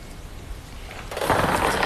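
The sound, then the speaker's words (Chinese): Jiangsu sports lottery seven-digit draw machine starting up: after a quiet second, a loud steady whirring churn of spinning numbered balls sets in and keeps going to the end. “将正式开启本期江苏体彩七位数直播摇奖，请工作人员启动摇奖机。”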